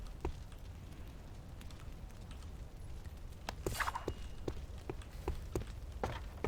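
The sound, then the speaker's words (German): A player character climbing a ladder in a Source-engine video game, a scattering of short, sharp thuds over a constant noisy background, sparse at first and then coming in quicker, irregular bursts toward the end. “Okay, ich möchte einfach nur die Leiter klettern, ne? Alter, run! Ey, Leitern in Spielen, das ist der Wahnsinn, ey.”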